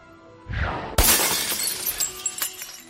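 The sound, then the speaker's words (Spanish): A drinking glass shatters with a sharp, bright crash just after a softer burst of noise, followed by scattered tinkling fragments and another brief sharp clink near the end. “después de romper más de un vaso y más de una estantería”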